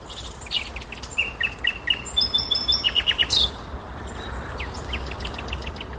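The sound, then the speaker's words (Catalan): Small birds chirping outdoors at Sils: a quick run of many bright, high chirps in rapid succession, then softer, scattered calls over a steady background hiss. “sóc la Titi i estic avui a Sils sentint els meus amics, els ocellets”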